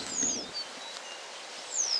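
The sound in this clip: A western yellow wagtail, a small songbird of farmland, gives thin, high, plain chirps: one brief call near the start and another near the end, faint over a quiet background.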